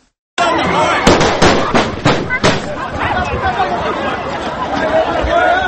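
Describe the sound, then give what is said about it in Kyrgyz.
Guards fire gunshots into the air at a tense political assembly: several sharp bangs crack out in quick succession over a loud, murmuring crowd and nearby voices. “Курманбек Бакиевке сөз берилген жок жана аны коргоо үчүн күзөтчүлөрү асманга ок атышты”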